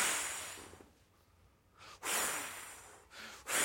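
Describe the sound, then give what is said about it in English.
A person exhales in airy, hissing breaths, three in all: a long breath that fades, a second drawn-out one and a short final puff. There is no speech. “He breathed on it.”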